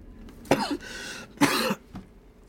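A person acts out coughing after an impact in a dust cloud: two rough, breathy coughs, then a fainter short one.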